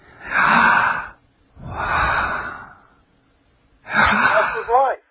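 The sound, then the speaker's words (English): A guttural, breathy 'Yah' pushed from the diaphragm with clenched teeth, voiced three times as harsh, airy bursts separated by short pauses. The last burst carries a clearer voiced tone. “To say Jesus, you've got to clench your teeth to say Yah. It's a guttural sound from your diaphragm in your lungs.”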